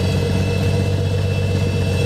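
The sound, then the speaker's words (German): A six-cylinder, 230 hp, 8-litre propeller aircraft engine runs with a loud, steady drone and a low throbbing hum, with no voices over it. “Das sind 6 Zylinder, 230 PS. Da geht was. Da geht was. Bei 8 Liter Hubraum.”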